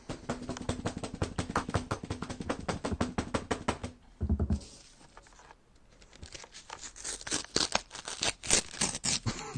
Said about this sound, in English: that's a big envelope. They sealed that one very tightly.